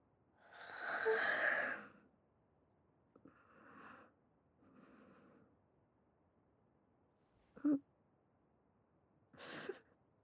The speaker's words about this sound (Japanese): あくびも映っちゃったね。